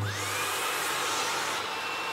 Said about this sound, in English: So we're going to use our vacuum cleaner. I'm using the wider spade at the moment because we're doing less detailed work